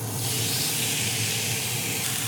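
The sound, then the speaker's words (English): Juicy Lucy burger patties stuffed with American cheese sear in a hot skillet, giving a loud, unbroken hissing sizzle that stays level throughout. “So the skillet's nice and hot now. We're gonna get our burgers down.”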